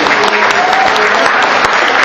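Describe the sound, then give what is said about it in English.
An audience applauds a magic act with loud, dense, continuous clapping that holds steady for the whole stretch, with no pause or fade. “Let's have another round of applause for Silas Gustafson and his magic.”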